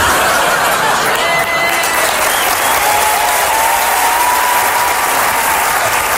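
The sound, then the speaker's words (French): A theatre audience gives a standing ovation at a stand-up comedy show: dense, steady applause from many hands holds at a loud, even level for the whole stretch. “Et si jamais vous aviez l'intention de me faire une standing ovation à la fin, je vais vous demander de me la faire, mais maintenant.”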